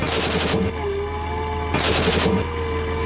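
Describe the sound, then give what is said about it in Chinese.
Two rapid bursts of firing from a sub-caliber barrel-insert gun fitted in a warship's main gun during training at sea, each burst about half a second of fast, sharp reports over a steady low mechanical drone. “训练中，我们用内膛枪代替主炮击发”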